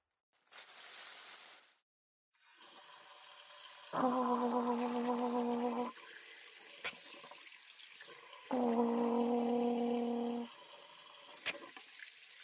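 Running tap water as hands are washed at a sink: a short hiss, then a steady flow of water with two long, even tonal whines rising over it, and no talk.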